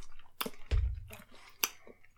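Chewing of Warheads sour candy: a few short, moist crunching and squishing bursts, quiet and irregular, with no talking.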